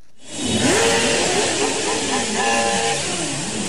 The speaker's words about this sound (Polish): Dla jednych to jest nieznośny łomot i ryk, dla innych rasowe granie silnika.